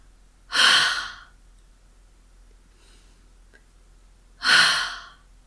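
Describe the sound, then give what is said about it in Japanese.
Two slow, deep breaths during an abdominal breathing exercise, each a soft airy rush lasting under a second, separated by a quiet pause of about three seconds with only a faint trace of air between them. “息を吸うときは自然に鼻から息が入ってお腹が膨らみます。”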